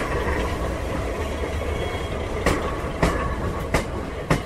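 A British Pullman train carriage running on rails, a steady low rumble with four sharp, rhythmic wheel clacks in the second half, with no voices.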